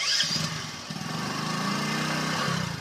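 A motorcycle engine runs in a village in India as two riders climb onto the bike. It holds a steady, low buzzing drone with a brief dip early on.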